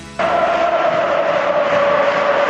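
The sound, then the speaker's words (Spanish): Football crowd roaring at Mestalla stadium during a Valencia match, a sudden loud surge of many voices that holds steady, with a sustained chant-like tone running through the broad crowd noise. “Ahora vuelve a animarse el público en Mestalla, tal y como va el partido cuando juega Gerard.”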